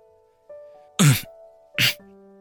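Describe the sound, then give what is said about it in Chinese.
Someone clears an itchy throat in two short, raspy bursts, the second slightly shorter, over a soft sustained music bed. “江瑶清了清有些发痒的喉咙，轻声嘀咕着”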